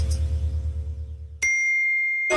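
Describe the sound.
A single bright message notification ding for a phone messaging app rings out clearly and sustains after a low, humming backdrop cuts off, its pure tone lingering to the end.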